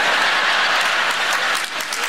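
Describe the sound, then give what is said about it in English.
Comedy show audience bursting into applause, a dense, steady wash of many hands clapping that stays loud throughout the short stretch with no voices above it. “I haven't got time for your applause.”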